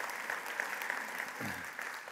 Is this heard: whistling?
no